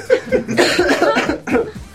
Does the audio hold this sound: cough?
yes